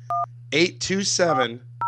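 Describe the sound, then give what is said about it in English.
Telephone keypad tones dialing a number: one short two-tone beep, then a voice talking, then another beep starting at the end, all over a steady low hum. “I'm going to dial it in right now.”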